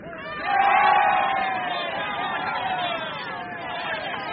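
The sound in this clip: Crowd cheering at the end of a horse race: a dense roar of many voices that swells sharply after half a second and stays loud and sustained to the end.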